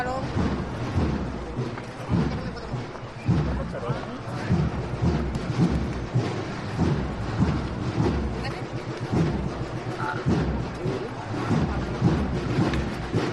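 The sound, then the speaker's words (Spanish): A crowd applauds at the end of a procession march while the float keeps moving forward; the clapping is dense and continuous, with a voice speaking over it. “Unos aplausos al término de esta marcha mientras sigue andando el palo intentando ganar los máximos metros posibles.”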